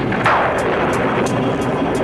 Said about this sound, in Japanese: うろたえるな。これが地球の雷というものだ。